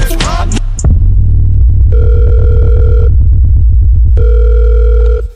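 Telephone line tones while a collect call is dialed: two long, steady electronic beeps separated by a pause, over a low, rhythmic throbbing hum, with a short burst of noise at the start.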